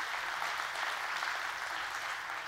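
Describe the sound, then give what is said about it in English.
A church audience claps to welcome people joining the service online, giving a full, even wash of applause that holds at a steady level. “church family, let's give all those who are joining us online right now a great big Journey Church welcome. Come on, give it up for them.”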